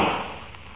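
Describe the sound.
A single gunshot from a western radio drama: one sudden sharp crack at the start, followed by a quickly fading tail.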